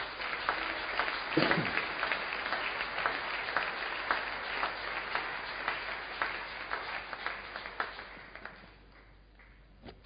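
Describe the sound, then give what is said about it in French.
Church audience applauding to acclaim the Lord: sustained clapping with some distinct individual claps, tapering off to a few scattered claps near the end. “Alléluia. Acclamons le Seigneur.”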